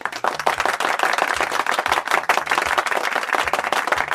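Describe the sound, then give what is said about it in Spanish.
Applause greets an arriving guest: dense, steady clapping from many hands, loud and continuous for about four seconds, with no voices over it. “Señores, aplausos para Armando Tapia, el doctor Manón.”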